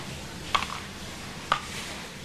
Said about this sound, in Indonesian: Yuk, tomatnya udah diiris loh. Kok yang diiris talenannya?